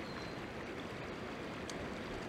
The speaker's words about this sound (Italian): abbiamo il corso del fiume vicino. Sentite anche lo scorrere dell'acqua, è un bellissimo fiume